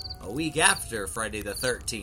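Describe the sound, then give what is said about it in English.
High, thin cricket chirps from the night woods at a campsite with a fire, sounding faintly under a person speaking. “Listen to those crickets chirping.”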